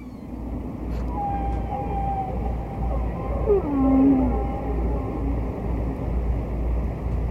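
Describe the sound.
Humpback whale song from a vinyl record of a distant whale: a few drawn-out tonal moans and sweeping whistles, one higher and one lower, over a steady low rumbling background.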